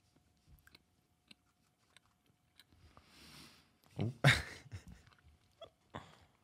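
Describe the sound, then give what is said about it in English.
Someone takes a small bite of food and chews it, making soft, scattered crunchy clicks. A louder, breathy burst of mouth noise follows partway through, then more light chewing. “All right, we're going to do it. We got it. I'm taking a little bite.”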